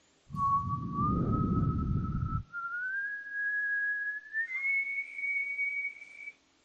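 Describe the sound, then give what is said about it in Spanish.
A gentle, soft whistle holds one clear, steady tone that steps upward in pitch twice. A low rumbling noise sits beneath it during the first half. “te lo voy a decir como dice la Reina Valera del 60, en un silbido apacible y delicado.”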